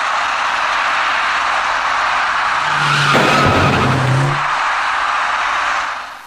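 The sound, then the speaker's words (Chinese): A white passenger car skids at an intersection before hitting an electric bicycle: a loud, sustained tire screech lasting several seconds, with a sharper squealing tone in the middle before it cuts off. “事故发生之前，一位电动自行车的骑车人自南向北闯红灯进入了路口。与此同时，一辆白色小客从路口另一侧直行而来。”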